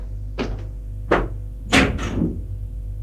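Front door being opened, heard as a few short, sharp thuds and clacks of door hardware, separated by brief pauses, over a steady low hum.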